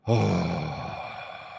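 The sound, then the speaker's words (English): A long exhalation is drawn out slowly during a bodywork stretching session, a breathy sigh that starts strong and fades gradually over more than a second. It is faint and heard alone. “I want you to emphasize a long exhalation.”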